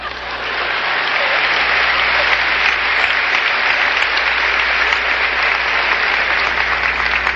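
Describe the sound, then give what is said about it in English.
Audience applause swells quickly and then holds as dense, steady clapping from many hands, loud and unbroken to the end with no voices on top. “It's premature. Your applause.”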